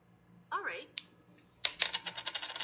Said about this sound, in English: I digitally flipped the coin, and apparently you have to ask Google to flip it for the audio version to come out.